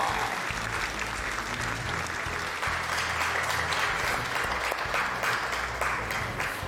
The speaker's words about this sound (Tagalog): let's all clap for Fernando Poa.